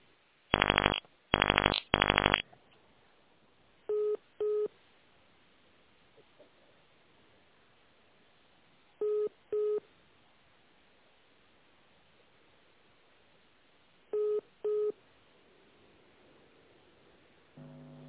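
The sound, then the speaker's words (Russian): Telephone keypad tones dialing an extension on a company's automated phone line: six short, steady electronic beeps in three evenly spaced pairs, heard alone over a narrow phone connection. “Если вы знаете внутренний номер сотрудника, наберите его в тоновом режиме.”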